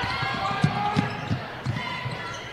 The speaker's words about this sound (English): Olson will bring it up, stops in front of us, swung far side now. McDonald. McDonald dribbles back to Olson on the near side.